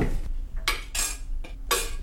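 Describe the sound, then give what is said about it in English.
Metal clatter of a lid set on a cooking pot of dal with tadka: a few sharp, bright clanks and rattles in quick succession, fairly loud, with no talking. “So we're gonna just put the lid on so that it can boil.”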